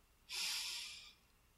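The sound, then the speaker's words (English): One long, deep breath during a guided sound-bath relaxation exercise, an airy rush that swells quickly, then tapers off over about a second, heard alone with no talk. “and exhale. And one more deep breath in”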